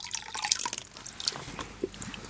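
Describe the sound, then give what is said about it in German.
Water bubbles and drips as a wind-up toy strapped with a rubber band sinks halfway, giving irregular small splashes and quick gurgling blips, denser at first and then sparser. “der macht blub, blub. Der blubbert und geht so halb unter.”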